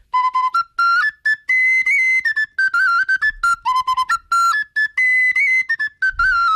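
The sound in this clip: A well-tuned flabiol, the small Catalan flute, plays alone in a lively run of many clear, bright whistled notes, some short and detached, others held and trilled, stepping up and down a melody.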